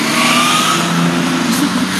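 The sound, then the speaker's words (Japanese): A car engine revs hard as the vehicle climbs an uphill curve, a loud, steady drone filling the whole stretch without a break. “車が通る なしょうがない、ここ上り坂なんで車が吹かすんです。”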